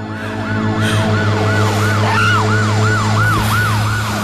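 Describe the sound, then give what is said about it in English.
A fire engine siren wails in loud, rapid up-and-down sweeps as the truck speeds along, about ten even cycles over a steady low engine drone, with no voices. “A fire engine is speeding towards him”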